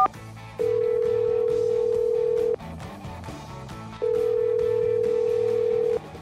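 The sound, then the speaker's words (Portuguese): Telephone line tones as a call is placed on a studio phone line: two long, steady, mid-pitched tones, each about two seconds long, separated by a short quieter gap with faint line noise. “vamos lá, discando aqui”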